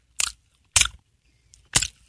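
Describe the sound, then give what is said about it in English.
Crunchy beef jerky dog treat being bitten and chewed: three loud, dry crunching bursts with short gaps between them, plus a faint smaller crunch. “I try this human-grade dog treat. Would you? It's just a beef jerky to me, you know?”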